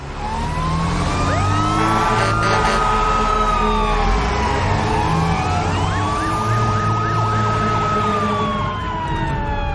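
Fire engines leaving the fire station with sirens: several loud wailing sirens overlap, rising and falling continuously, with a stretch of rapid yelping sweeps partway through and a low engine rumble beneath.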